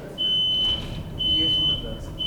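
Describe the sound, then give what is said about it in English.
Smoke alarm going off, sounding shrill, high-pitched electronic tones in long repeated pulses over a low, murmuring background rumble. “At home, when my smoke alarm goes off, I fan it, but it's a little far away for that.”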